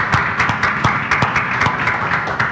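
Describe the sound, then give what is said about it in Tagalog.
A church audience claps together as a clap offering to God, sharp loud claps landing in a steady, even rhythm over a dense bed of scattered clapping. “Come on, can we give God a best clap offering?”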